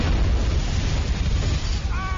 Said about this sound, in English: How do they walk away in movies without flinching when it explodes behind them?